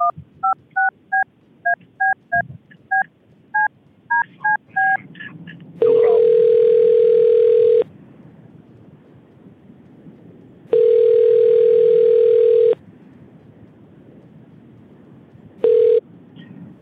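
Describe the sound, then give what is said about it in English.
Telephone keypad tones are dialed in a rapid string of short, clear beeps, then a ringing tone on the line follows as two long, steady tones a few seconds apart and a third cut short. “Let me just find her phone number here. Okay, yeah, stay on the line. I'm calling Toya now, okay?”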